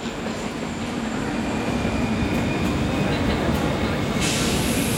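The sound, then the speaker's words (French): A train halting at the station in Stuttgart gives a continuous, loud rolling rumble with a steady rail-noise texture. Faint high squeaks appear toward the end. “Le train fait une halte à la gare de Stuttgart.”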